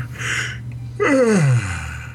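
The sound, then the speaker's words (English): A person gives the first yawn of the morning: a breathy intake of air, then a voiced groan that slides down in pitch and fades into quiet. “first yawn of the morning”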